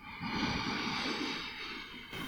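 Slow, deliberate breathing during a guided exercise with the exhale meant to be twice as long as the inhale: one long, soft, steady rush of air lasting about two seconds, then the start of another.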